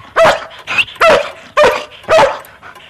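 A watchdog barks loudly: four sharp, hoarse barks in an uneven rhythm, with a softer, higher yelp between the first two.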